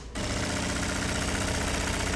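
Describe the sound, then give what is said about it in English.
A robotic sewing machine stitches two pieces of denim into a jeans leg. Its motor starts abruptly after a brief quiet moment and then runs as a steady, fairly faint, rapidly pulsing mechanical whir with no one speaking. “In this part, the sewing, it looks just like a pair of jeans going through a sewing machine, except there's nobody sitting there, nobody to push the fabric through.”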